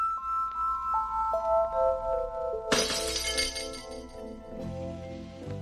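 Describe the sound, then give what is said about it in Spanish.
A wine glass shatters against the edge of a step: after a run of sustained, descending chime tones comes a sudden bright crash, then ringing, tinkling fragments and a further smaller scatter of glass. “Una copa se estrella contra el vértice de un escalón de los dos o tres que marcan un desnivel de la habitación. La copa se rompe con un sonido que sobresalta y que pese a eso cautiva.”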